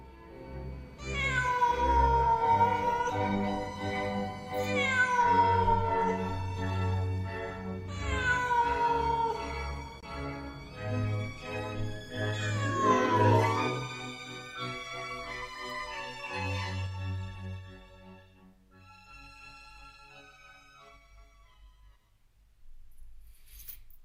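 A black cat perched on a wall wails mournfully in a long series of loud, drawn-out meows, each cry sliding downward in pitch, with no talk over them.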